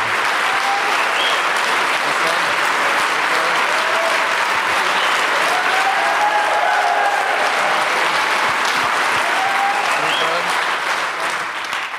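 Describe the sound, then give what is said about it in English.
Audience applause welcomes a former football manager and two ex-players onto the stage at a live talk event. The loud, dense clapping holds steady for about twelve seconds and eases slightly at the very end. “So please put your hands together. Please welcome Arsene Wenger, Martin Keown and Nigel Winterburn.”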